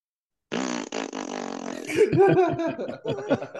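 A long, loud, buzzy fart with a low, droning tone lasts over a second. Further sputtering, broken vocal noises follow.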